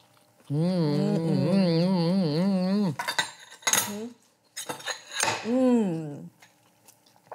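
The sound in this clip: Cutlery scraping and clinking on a plate while someone eats a vegetable salad with fennel, pistachios and tomato. A drawn-out squeaky scrape gives way to several sharp metallic clinks and rattles.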